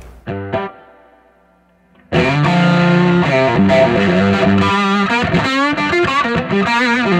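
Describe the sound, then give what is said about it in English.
An electric guitar played through a TruFi Two-Face fuzz pedal, which switches between 1969 and 1970 Fuzz Face circuits. A few short plucked notes ring out, then after a pause come loud, thick, saturated chords and lead lines. “it's called a two-face because it's got a 69 fuzz face and a 70 version of the fuzz face. So you kind of can switch between the two of them. And that's the same builder? Same builder, TruFi, out of Maine area.”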